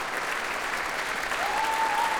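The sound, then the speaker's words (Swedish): Full, sustained applause from a concert audience in Berwaldhallen for the Swedish Radio Symphony Orchestra as listeners rise to their feet. The clapping is dense and even, holding at a steady level throughout. “allt så som applådrundan går runt så ställer sig faktiskt fler och fler upp här i Berwaldhallen och applåderar Sveriges Radios symfoniorkester som nu reser på sig”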